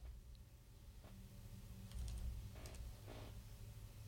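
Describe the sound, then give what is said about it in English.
Faint typing on a computer keyboard, a few scattered soft clicks in small clusters over a low, steady background hum. “And, of course, I typed in 59 instead.”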